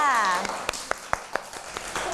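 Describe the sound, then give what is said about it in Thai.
Children clapping together in a classroom after a clay-modelling activity, a steady series of sharp, evenly spaced claps that follows a woman's voice at the start. “ใช่แล้วค่ะปรบมือให้กับน้องน็อตหน่อยค่ะ”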